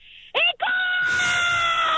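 A person screams as loud as possible in a loudest-scream contest: a sharp, high vocal burst with a falling pitch, a brief break, then a long sustained high scream that stays loud to the end.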